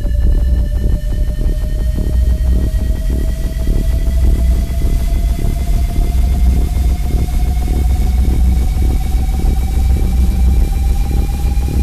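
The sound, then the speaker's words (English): A sci-fi jump drive powers up with a loud, continuous rumbling hum, thin tones slowly rising in pitch across the full twelve seconds. “activating jump drive.”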